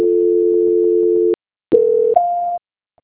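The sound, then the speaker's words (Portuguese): Telephone tones as a call is transferred: a steady, loud low tone, a short silence, then a brief tone that steps up to a higher pitch before cutting off. “Só mais um minutinho, por favor, deixa eu transferir a ligação da senhora.”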